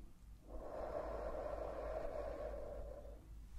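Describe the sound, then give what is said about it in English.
A deep breath in and out during a simulated cranial nerve examination, a soft, steady airy rush lasting nearly three seconds, quiet and alone. “Deep breath in and out.”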